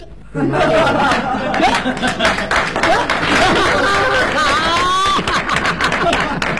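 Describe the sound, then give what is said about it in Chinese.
Audience clapping at a live comedy stage show, a lively patter of applause mixed with chuckles and laughter while a performer talks over it. “哎呀，连我都鼓掌。 哎， 有本事， 那是， 各位还真捧您，还真鼓掌。”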